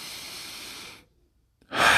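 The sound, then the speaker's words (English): Deep breaths drawn through the nose: a soft, steady, airy hiss fades into a short silence, then a louder, sharper rush of breath begins. “Take deep breaths. Through the nose.”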